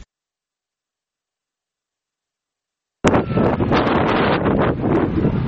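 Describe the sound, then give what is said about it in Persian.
Strong wind blowing against tents in Herat: after about three seconds of silence, a loud, steady, rough roar of gusting air begins and keeps going to the end. “اما مقاومت خیمه ها در برابر بادهای تندی که در هرات میوزه محدود است.”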